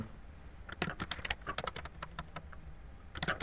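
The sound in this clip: Code is typed on a computer keyboard in a rapid, uneven patter of many crisp key clicks at moderate loudness, with short pauses between bursts.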